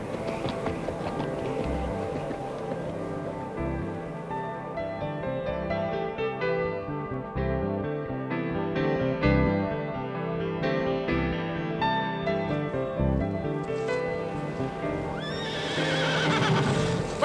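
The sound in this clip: A white horse gallops and neighs as its rider sets off for a dike. The hoofbeats and whinnies sit inside a dense, continuous, fairly loud mix of other sound that runs the whole way through.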